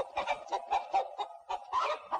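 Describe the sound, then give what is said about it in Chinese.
A hen under a table clucks in distress with a rapid, agitated string of many short squawking clucks. The clucks are fairly faint and come in uneven bursts, with no voices. “桌子底下的母鸡被这动静惊扰，又是一阵寻死觅活。”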